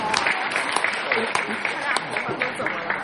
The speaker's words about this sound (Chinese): 谢谢大伙的掌声鼓励啊！